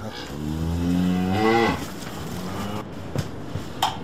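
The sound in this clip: A cow moos once in a long, deep, loud call on a rural village homestead in winter. Afterward only quiet background remains, with a few faint clicks.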